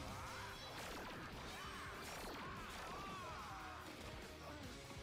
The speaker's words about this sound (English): Well, his slices are making laser blaster noises.